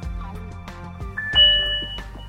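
A phone notification ding rings out as a bright, clear chime that swells and sustains briefly, among other soft tonal notes.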